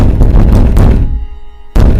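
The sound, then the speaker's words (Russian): Something banging hard against a door: a few loud, heavy thuds with a booming low resonance, the sound dying away into a brief near-silence before one more sharp, forceful bang. “Делаю шаг назад, и в этот момент что-то сильно бухнуло по двери.”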